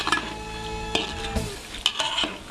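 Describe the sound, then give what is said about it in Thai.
Pork fat sizzles gently as it renders over low heat in a pan, with a steady soft hiss. A utensil stirs and scrapes through it, adding a few light clinks. “เราจะเจียวมันหมูด้วยไฟอ่อนๆจนกว่าจะเริ่มสุกเหลือง”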